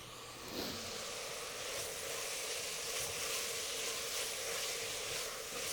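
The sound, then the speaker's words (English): Oregano, cumin and chili powder sizzling in onions and oil in a pan: a faint, steady, bright frying hiss that swells slightly just after the start and continues evenly to the end, with no voices. “We're going to add our oregano and our cumin, our little chili powder. And once it hits the onions and the oil, it'll really start to release.”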